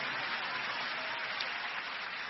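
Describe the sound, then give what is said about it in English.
Church audience clapping for the Lord during a service, a dense, even wash of many hands that runs steadily through the whole clip without pauses or peaks. “Give the Lord a big clap and a big shout of praise.”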